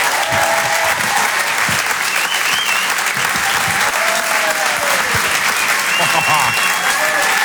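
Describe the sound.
Comedy club audience applauding as a comedian is brought on stage, a dense, steady wash of clapping that stays loud and unbroken throughout.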